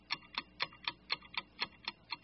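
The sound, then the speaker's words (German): A clock ticks nine times in a steady, even rhythm, each tick crisp, bright and fairly faint against near silence. “Das ist Ottos Uhr.”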